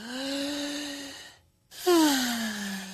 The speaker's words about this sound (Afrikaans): diep asem so. Asem in en asem uit.